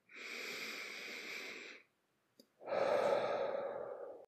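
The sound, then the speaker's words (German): A slow, deep breath drawn in through the nose, then after a short pause a long breath let out through the mouth, during a guided meditation breathing exercise. Both are soft, airy and unhurried, with no talk. “Atme nochmal tief ein, durch die Nase einatmen, durch den Mund ausatmen.”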